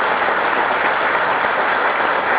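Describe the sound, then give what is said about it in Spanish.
Applause from a crowd at the opening of an Andean presidential council summit in Tarija, a steady dense wash of clapping holding at an even loud level throughout, with no voices over it. “Recibimos como siempre un fuerte aplauso acá en la tierra”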